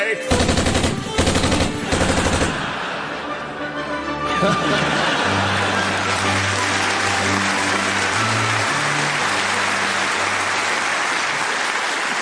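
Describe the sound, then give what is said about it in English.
Rapid machine-gun fire in dense bursts for the first couple of seconds, loud and crackling, then giving way to a sustained low droning tone that runs to the end. “He's carrying a machine gun. Oh, no.”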